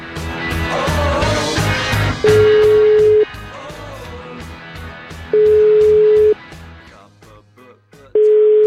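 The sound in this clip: Telephone ringback tone on an outgoing call: three steady one-second beeps at a low-mid pitch, a few seconds apart, after a short stretch of other sound.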